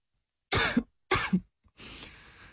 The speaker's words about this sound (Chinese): 咳嗽了几声，继续说